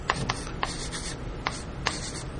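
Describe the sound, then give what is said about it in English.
Handwritten notes being put down with a pen: a steady dry scratching of strokes across paper, broken by a few sharper ticks, with no talk. “I'm writing the law and the prophets down. That's, I'm going down the line here.”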